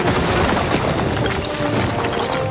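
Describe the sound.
An airstrike explosion produces a loud, continuous booming roar that stays dense and heavy for the whole clip, with no separate blasts standing out and no voices.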